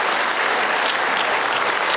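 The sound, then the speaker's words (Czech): Audience applause at an awards ceremony for an absent nominee: thick, continuous clapping from a large crowd, loud and uniform from start to finish, with no talk over it. “Tak víte co? I když tady teď není, pojďme mu teď zatleskat, a on to určitě na ČT24 zítra zveřejní, nebo až bude zdravý. Tak tleskáme nominovanému Daniel Stach.”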